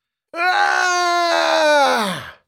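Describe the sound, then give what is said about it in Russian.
A sick man screams from upstairs in one long, sustained, strained cry lasting about two seconds, loud and harmonic-rich, holding steady before sagging and dying away at the end. “Крик повторился.”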